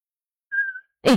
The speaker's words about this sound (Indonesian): Bersiul.